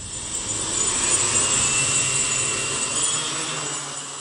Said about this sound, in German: Die Holzdrohne hebt ab.